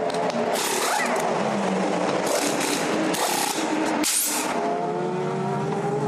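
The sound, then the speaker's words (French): LMGT3-class GT race cars make pit stops during a race, with a continuous loud engine roar, several brief whooshing surges and some revving as cars pass and pull in. “Et là, on voit les premiers arrêts au stand pour les LMGT3.”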